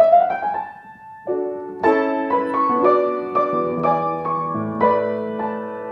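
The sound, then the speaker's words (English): An Eibach baby grand piano plays in a piano workshop in England, a series of clear, sustained notes and chords struck one after another at a moderate pace, ringing richly with no talking over them. “the piano should sound like this Eibach piano at the Roberts Pianos Workshop in England.”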